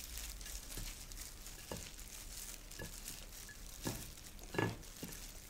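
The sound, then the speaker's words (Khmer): Soft stirring and scraping as seasoning ingredients are mixed together for a dish to be wrapped in banana leaves, with a few faint taps and clicks over a low, steady hiss. “នៅពេលនេះយើងលាយគ្រឿងរបស់យើងឲ្យចូលគ្នា”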